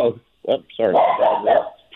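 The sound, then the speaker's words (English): A dog barks and yips in the background, giving a few short, sharp bursts and higher whining cries that mix with a person's voice talking. “So no problem with the dog. We're dog friendly here.”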